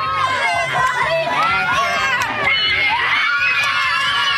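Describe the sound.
Selkirk students in Manitoba cheer and shout to welcome the provincial premier at a free youth transit announcement, a dense, continuous wash of high, excited young voices with scattered shrieks.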